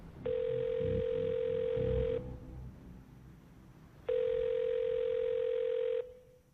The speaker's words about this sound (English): behind her the phone on the floor continues to dial